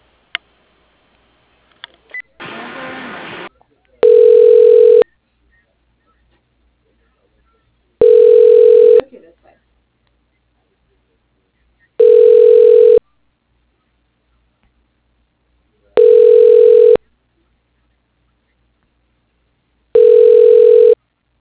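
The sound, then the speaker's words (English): Telephone ringback tones as a call is transferred to voicemail: a click and a short burst of noise, then five evenly spaced, steady ring tones, each about a second long and separated by silence. “Okay, I'll transfer you. Just a moment.”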